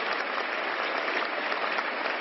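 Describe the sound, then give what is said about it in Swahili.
Applause from delegates at the 38th session of the UN Human Rights Council in Geneva, a standing ovation after a speech by High Commissioner Zeid Ra'ad Al Hussein: dense, steady clapping that holds even throughout, with no talking. “wajumbe waliohudhuria kikao hicho hapo jana walimpigia makofi na kusimama baada ya Zaid Rad Al Hussein kutoa hotuba hiyo yake ya kusisimua.”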